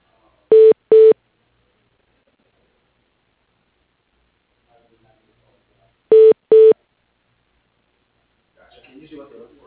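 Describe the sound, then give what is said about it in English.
Telephone keypad tones dial an extension on an office phone system: two quick pairs of short, clean beeps separated by a long silence, followed by faint rustling noise at the end. “For human resources, dial 217. For the quality manager, dial 201.”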